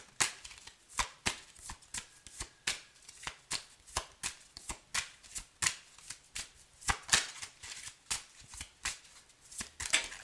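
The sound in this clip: A deck of tarot cards being shuffled over and over, many crisp riffling bursts in a steady, regular rhythm, with no talk over them.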